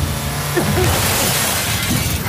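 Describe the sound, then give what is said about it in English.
A truck crashing through a barn entrance: a loud, dense, continuous clatter of splintering and shattering debris that holds steady for the whole stretch. “Pete's truck crashed through the barn entrance.”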